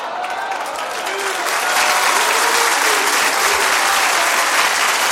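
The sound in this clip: Audience applause from a crowd at a speech, many dense overlapping claps that build over the first two seconds and then continue loud and steady.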